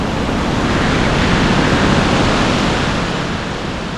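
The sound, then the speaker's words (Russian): A sudden hurricane storm at sea strikes a ship off the rocky Peloponnese coast. Wind and crashing waves merge into a dense, continuous roar that stays loud and steady throughout and eases slightly toward the end. “Но когда зоркому взгляду Линкея открылись скалистые берега и зеленые рощи Пелопоннеса, внезапно налетел страшный ураган.”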